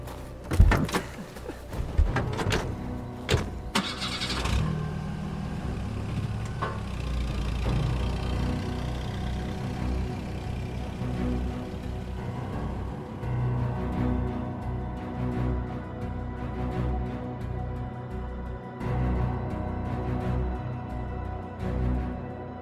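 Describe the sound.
A generator starting and running: a few seconds of sharp mechanical clunks and knocks, then a steady, low, droning engine hum that continues to the end, broken now and then by brief knocks.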